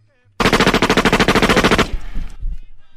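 A firing squad opens fire in an execution under the Cuban regime, with a loud, rapid burst of many shots run together for about a second and a half, then a rough, fading tail of echo.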